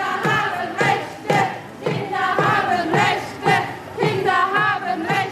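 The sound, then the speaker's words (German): Loud rhythmic chanting from a children's demonstration marching through Gelsenkirchen city centre on International Children's Rights Day, with many young voices shouting together in steady repeated bursts. “Passend zum Internationalen Tag des Kinderrechts ist da heute eine Kinderdemo durch die City gezogen.”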